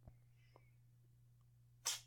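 A single short, sharp sneeze bursts out near the end, after quiet stillness over a faint, steady low hum.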